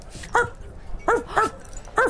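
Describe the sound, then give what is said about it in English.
Short, high yipping barks from a dog, four quick bursts spread unevenly over about two seconds, clear and alone with no talk. “What in the world? Look at this adorable dog.”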